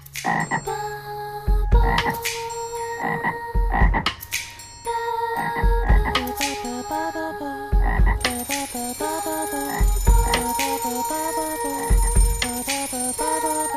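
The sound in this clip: Frogs croak in water, repeating steadily in a strong rhythm, with a deep thump roughly every two seconds under layered, ringing tones like a telephone bell.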